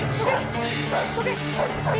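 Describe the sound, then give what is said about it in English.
A small dog barks as it rushes at a chain-link fence, giving a few high yapping barks over a dense, noisy background. “A small dog runs at the fence, startling Lori.”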